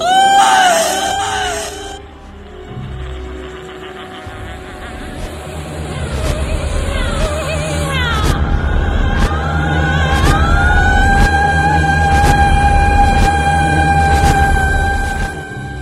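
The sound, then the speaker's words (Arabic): A woman's shrill scream with a wavering pitch opens this horror radio drama effect. It gives way to sustained tonal drones and low rumble that build and hold loudly to the end. “زحفت أكتر وأكتر وقامت وقفت عينيها سودة تماما، صرخت نفس الصرخة اللي سمعتها وانا في المقابر.”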